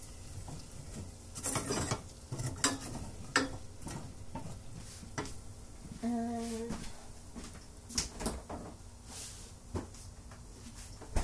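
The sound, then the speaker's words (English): A utensil stirring food around in a pan while cooking, with faint intermittent scraping and rubbing strokes and small ticking contacts at an irregular pace. “Mix that around.”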